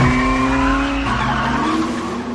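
A car accelerates away with tires squealing, a loud sustained screech and engine whine that steps down in pitch midway and continues strongly to the end, with no talking.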